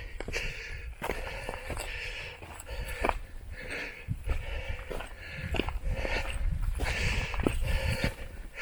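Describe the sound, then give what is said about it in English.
Footsteps of hikers on a flat stretch along a ridge near a summit: many irregular steps on the ground over a steady wash of outdoor noise. “so I have a feeling we're walking along a ridge now.”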